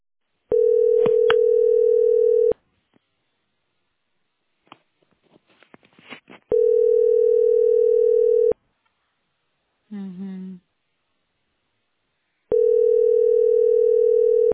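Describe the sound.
Telephone ringback tone of an unanswered call: three loud, steady mid-pitched tone bursts of about two seconds each, separated by long silent gaps, with faint clicks and rustling in one gap and a brief warbling sound in another.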